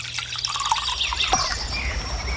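Water poured into a glass, a continuous bright splashing trickle with a brief gurgling sweep midway, steady and fairly loud for a couple of seconds.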